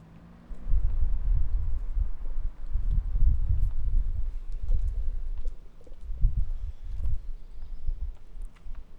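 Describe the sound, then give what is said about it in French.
Footsteps of a person walking through a city while carrying a backpack. Soft, low thuds run under a steady rumbling background noise throughout. “Je marche.”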